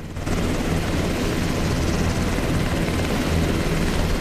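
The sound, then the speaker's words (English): A helicopter flying over the Californian countryside in early morning, its loud, steady rotor and engine drone filling the whole clip as a dense, unbroken roar with no voices. “a helicopter flies out across the Californian countryside in the early morning light with Harris and Price on board”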